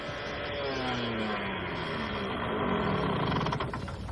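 A moped engine running: a continuous buzzing drone with tonal overtones, holding at a fairly steady, moderate level throughout.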